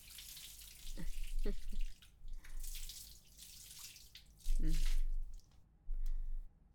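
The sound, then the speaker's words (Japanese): Water is poured to rinse someone off in a bath, heard as a few soft, short splashing pours separated by brief pauses, all faint. “丁寧にお流ししませんとね。”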